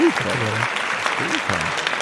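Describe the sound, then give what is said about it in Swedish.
An audience claps for the winner of a quiz contest. The clapping is a dense, steady clatter with a voice speaking over it. “Bra Larsson, vi får klappa lite Larsson.”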